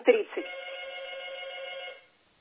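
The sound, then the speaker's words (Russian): A telephone rings with a call from the upper floors of a building: a single sustained bright electronic ring lasting about two seconds after a short choppy start, then cutting off into silence. “Это сейчас кто-то звонит из верхних этажей.”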